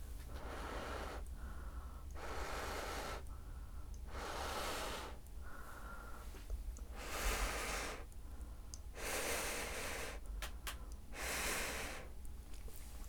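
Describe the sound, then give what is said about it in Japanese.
Someone blows on hot curry noodles to cool them, making many soft, breathy puffs in a steady rhythm over a low background rumble. “麺をすくってふうふうするね。”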